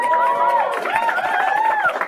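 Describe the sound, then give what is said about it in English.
High school students cheer as a sustained crowd, with drawn-out high whoops and shouts carrying over the dense noise. “We want to thank the students and the teachers from John Jay High School. Cheer if you want.”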